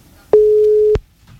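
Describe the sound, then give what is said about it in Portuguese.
A single steady telephone call tone sounds while a phone number is dialed: a mid-pitched hum of about half a second, framed by clicks at its start and end, alone without talk. “liga pra ele, agora. Quem ligar agora, ele vai atender.”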